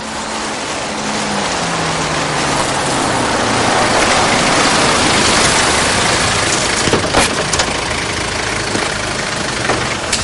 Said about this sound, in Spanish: Atraviesan el pueblo con el coche y se paran frente a la estación.